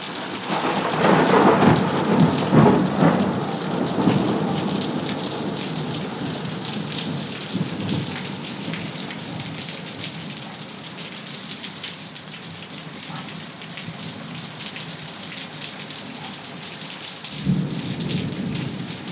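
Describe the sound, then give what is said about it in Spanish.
Rain falls steadily on a terrace with thunder in the background: a loud, low rumble rolls through the opening seconds, then eases into a constant hiss of fine rain, and a short, deep thump of thunder comes near the end. “esto es el sonido de la terraza, que está cayendo aquí la lluvia, cosas finas. Y se oyen los truenos ahí de fondo”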